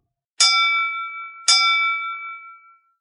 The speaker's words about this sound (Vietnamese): ba tiếng chuông vang lên lanh lảnh, vọng khắp đại điện. Tiếng chuông lớn khiến cho hội trường náo động lập tức trở nên an tĩnh.